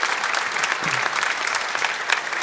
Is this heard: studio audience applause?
yes